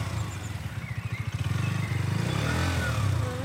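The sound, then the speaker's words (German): A motorcycle pulling away under throttle as a learner rider slowly lets out the clutch. The low, pulsing engine thrum grows steadier and slightly louder as the bike moves off. “Doch es klappt. Das so typische Merkmal jedes Motorrads ertönt.”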